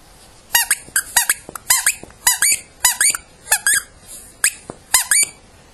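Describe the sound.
A squeaky baby turtle toy is squeezed repeatedly during play, giving many sharp, high-pitched squeaks. They come in a quick, uneven rhythm, often in close pairs, over quiet background.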